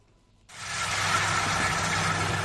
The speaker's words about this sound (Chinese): 在安徽黄山市歙县郑村镇梅村的油菜田里，大型收割机正开足马力穿梭作业，一笼笼油菜被快速卷入机身，脱离干净后，粉碎的秸秆从机尾均匀抛洒还田。